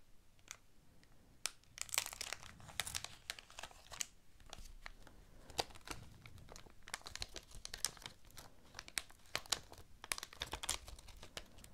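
Paper crinkling and rustling during an unboxing, with many irregular, crisp crackles and scrunches spread across the whole stretch. The sound stays faint, soft and close-textured, with no voices.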